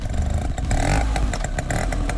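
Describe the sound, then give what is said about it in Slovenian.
Vespa motor scooter engine running with a loud, continuous buzzing drone and a light mechanical rattle, sounding alone without any voices. “to je zvok znamenite vešpice. In letos ta legendarni motorinčk praznuje 80 let.”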